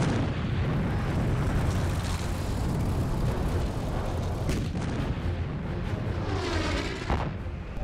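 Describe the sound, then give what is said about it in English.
A naval bombardment pounds the shore before a Marine beach assault, a loud and continuous roar of heavy booming. A couple of sharper blasts break through the rumble. “At 0900, the 3-hour naval bombardment comes to an end as the Marines prepare to assault the beaches.”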